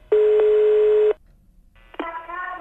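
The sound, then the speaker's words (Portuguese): A telephone being dialled to call again: a steady electronic tone sounds for about a second and stops abruptly, then after a short pause another line tone starts and runs to the end. “Vamos ligar de novo pra Leila. Vamos, liga. Ai, liga, vai, Tonho.”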